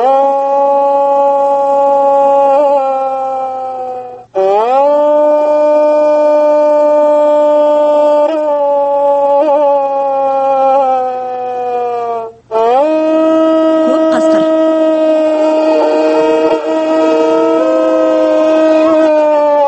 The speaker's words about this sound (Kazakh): Сирена.